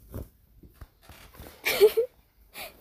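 Curtain pulled open in a bedroom: a fabric swish and rasp lasting about half a second, then a shorter swish, with faint small handling sounds before them.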